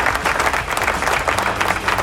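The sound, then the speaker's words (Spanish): Applause from an audience welcoming a rock program in a studio in San Juan, Puerto Rico: a dense, steady clatter of many hands clapping throughout, with no talk over it. “Bienvenidos a la nueva lechonera del rock. Aplauso.”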